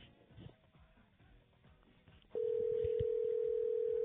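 A telephone tone on an outgoing call sounds as a single loud, steady, unbroken note. It starts partway through, after a stretch of low, murmuring background noise.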